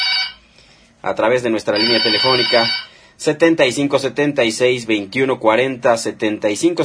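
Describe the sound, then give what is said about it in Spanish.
A telephone rings in a radio studio, a bright warbling ring lasting about a second under loud, continuous talk. “Por ahí hay un teléfono que está sonando, por ahí”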